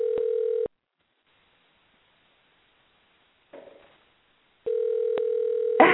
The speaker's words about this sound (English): Let's see if this works. Hold on. All right. It's dialing. Okay, let's see if he picks up.